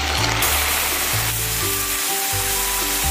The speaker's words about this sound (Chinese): 水倒进去，